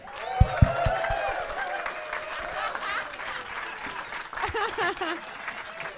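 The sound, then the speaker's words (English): A studio audience applauds to welcome a guest onto the stage at a live Christmas-edition comedy show, with soft steady clapping under people talking. “So if we could put our hands together, welcome to stage.”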